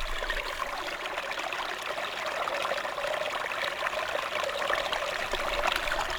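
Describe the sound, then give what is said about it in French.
Meltwater flows beneath a snow cover in a steady, even trickle, with continuous gurgling and hiss and no breaks. No voices are heard. “Le fluide aquatique passe dessous le manteau neigeux.”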